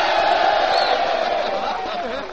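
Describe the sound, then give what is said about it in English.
A large audience of Army and Navy servicemen at a show shouts a long, loud, sustained "ho" in unison on request. The chorus holds steady and eases slightly toward the end. “Say, that's the Army and the Navy in the audience tonight. Nothing but, come on, boys, say ho.”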